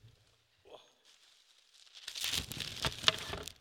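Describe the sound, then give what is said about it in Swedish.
Crinkling wrapping as items are unpacked at a prize presentation: a few faint rustles at first, then a dense, irregular crackle and rustle that grows louder through the second half. “Jag ska packa upp lite grejer.”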